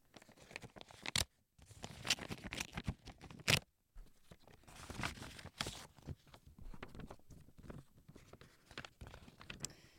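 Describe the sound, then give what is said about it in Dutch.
An anonymous envelope holding a letter is torn open, with faint, uneven bursts of paper ripping and rustling broken by short pauses and a few sharper tears. “Ik scheur hem open nu.”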